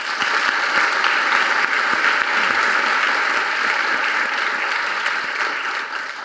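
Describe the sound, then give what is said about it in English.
An audience at an International Women's Day event applauds to welcome a guest, steady and loud hand-clapping holding evenly for several seconds before easing slightly at the end. “Can you please make her feel very welcome?”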